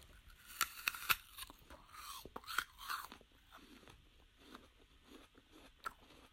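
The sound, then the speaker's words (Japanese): A crunchy bite into an apple, heard as a couple of sharp, crisp snaps followed by softer, irregular chewing crunches. Quiet throughout, with no talking. “このラジオトークで、ちょっとどういうりんごを食べているのか、ご紹介したいなと思いまして、早速一口かじってみますね。”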